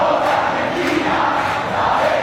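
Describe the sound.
Argentine football fans singing together after a World Cup final, a loud, thick mass of voices merging into one continuous chant that holds steady throughout, with crowd roar underneath.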